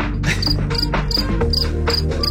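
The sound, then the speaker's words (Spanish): Crickets chirping as a sound effect, with many rhythmic, high-pitched pulsing chirps repeating steadily over a low, continuous background. “A ver, te vamos a regalar unos grillos.”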